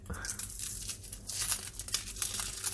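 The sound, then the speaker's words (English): Papery skin being peeled off a red onion, making dry crinkling and crackling with many small tearing bursts, continuous and fairly faint throughout. “So let's start with the red onion, because why not? Peel off the skinny bit.”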